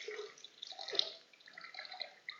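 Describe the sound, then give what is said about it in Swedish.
Water is poured into a bucket, a faint, irregular trickling and splashing with a few brighter drip-like plinks. “Nu har vi tagit det här. Vattnet är slut. Nu finns det fullt i den här hinken.”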